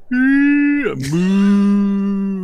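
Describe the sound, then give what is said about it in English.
A cow moos as an explosion blows it into the air: one long, loud, low-pitched call that dips sharply in pitch midway, with a brief noisy burst at the dip, then levels out again. “A cow, actually, as part of the explosion, a cow appears to get like blown into the air and just seems to fly over top.”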